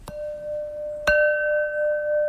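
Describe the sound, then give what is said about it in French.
Porcelain rings out in two struck tones, each a sharp tap followed by a clear, crystalline ring that sustains. The second strike is louder and rings on to the end. “Ce son-là, il n'y a que la porcelaine qui le donne. Et pourquoi ? Parce qu'en fait, c'est un son cristallin qui nous montre la solidité.”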